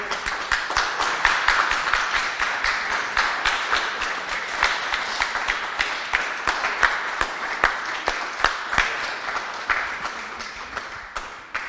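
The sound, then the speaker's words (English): Church audience gives a standing ovation: many hands clap in a dense, sustained round of applause that holds at an even level for about twelve seconds and tapers slightly at the close. “I think that we need to stand now and give a standing ovation to not only the mothers, but all the ladies in the church.”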